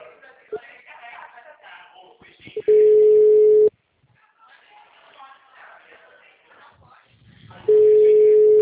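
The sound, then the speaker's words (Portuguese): Telephone call tones while a number is dialed: two long, loud, steady beeps of about a second each, separated by several seconds of low, muffled rustling noise. “A gente vai fazer uma ligação gravada, hein?”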